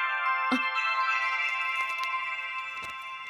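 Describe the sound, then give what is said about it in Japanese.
A phone email notification tone plays as a steady, bright electronic ringing tone, with a few faint ticks and clicks scattered over it. “あ、バイト先からメールですわ。”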